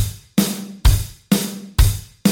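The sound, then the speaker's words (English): A drum kit plays a traditional rock beat, with the kick drum on the first and third beats alternating with snare backbeats. The hits are steady and evenly spaced under a bright, continuous cymbal wash. “A traditional rock drum beat sounds like this”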